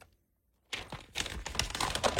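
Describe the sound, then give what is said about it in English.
A sheet of paper being crumpled and ripped: after a short silence, dense crackling and rustling bursts start abruptly and keep going, with some rapid ticking crinkles, until the end. “Oh, crumpling of the sheet. Tossing. Oh, then there's ripping going on.”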